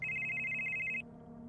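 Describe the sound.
A telephone rings during a call to a mother: a single steady, high electronic ring lasting about a second, then cutting off to a faint low hum.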